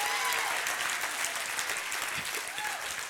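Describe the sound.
A church crowd applauds a woman who has just been introduced. The clapping is loud and continuous for the whole stretch, with a few voices faintly mixed in.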